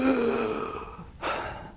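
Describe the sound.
A voice imitates a sharp, breathy gasp for air, like someone dying by crucifixion straining to pull up and breathe. One short, rasping inhale stands out after a stretch of low murmur.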